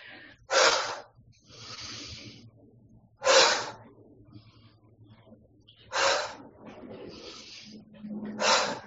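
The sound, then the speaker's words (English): Deep breathing during a breathing exercise: a few sharp, airy inhales alternate with softer, drawn-out exhales in a slow, steady cycle, with no talk. “Inhale up and let it out toward the earth. Release that breath.”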